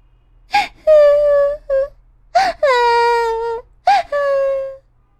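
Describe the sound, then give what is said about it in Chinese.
A voice imitates a child crying, with three drawn-out wailing sobs, each opening with a sharp gasping catch and then sliding into a sustained, quivering, high-pitched moan, loud and alone. “然后，他哭了一会儿。”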